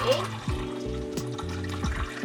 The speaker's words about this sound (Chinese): 然后我要加水。